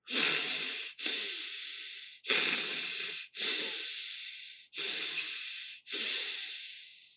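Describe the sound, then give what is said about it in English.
Rapid, forceful hyperventilation breathing from a breath-hold training method: six loud, harsh, hissing breaths in steady succession, each airy and rough with brief gaps between, and no talking. “In his method, you forcefully and quickly inhale and exhale 30 times like this.”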